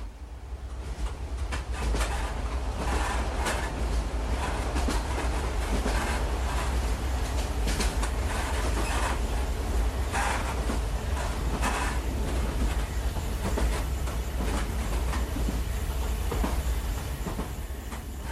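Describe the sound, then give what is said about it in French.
Steady, loud rumble of a Trans-Cameroon railway train moving at night, its locomotive and wagons keeping up a continuous rhythmic clatter of wheels over track throughout, with no voices. “On l'entend, la locomotive semble scander le rythme de l'univers jusqu'à l'arrêt dans un village où le grouillement humain réapparaît.”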